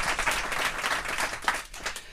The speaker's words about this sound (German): Wassili Golot und den würde ich auch gerne mit einem warmen Applaus empfangen